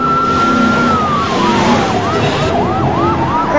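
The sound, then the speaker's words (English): Police sirens wail as cars speed past in a street chase, several overlapping siren tones at once: a long sweeping wail alongside fast rising-and-falling yelps over a constant traffic roar. “Ricky pulls away, followed closely by the cops as they speed past Reese and the boys.”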